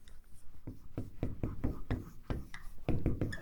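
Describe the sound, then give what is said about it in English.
Pen or marker strokes scratch out big, bold letters: a series of short, dry, scraping strokes in an uneven rhythm, faint and steady throughout. “I'm going to write these in big, bold letters.”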